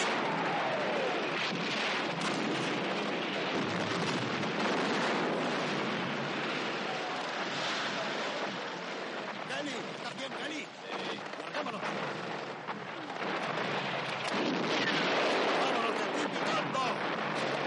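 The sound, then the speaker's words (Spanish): A mortar barrage and a bomb destroy a barn in a 1970 war film: continuous loud, dense rumbling blasts and debris noise throughout, with a brief lull before the roar resumes. “Kelly y Gran Joe agarran al coronel y se lo llevan saliendo cautelosos del granero debido a la lluvia de morteros que está teniendo lugar fuera. De pronto se tumban en el suelo y una bomba cae en el granero destrozándolo en cuestión de segundos.”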